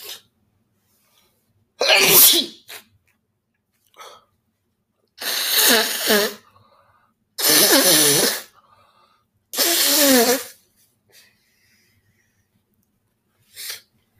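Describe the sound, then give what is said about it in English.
Repeated sniffing by someone in a freezing basement, not sick. Four loud, breathy sniffs arrive a few seconds apart, with a few fainter short ones scattered between them against near silence and no talk. “My bad, I keep sniffing.”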